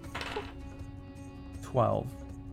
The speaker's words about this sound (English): Okay, that's a lot of dice rolls.